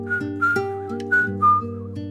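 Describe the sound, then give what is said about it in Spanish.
Faint whistling carries a wavering, sliding melody in short phrases above steady, sustained low accompanying tones. “Se escucha un leve silbido”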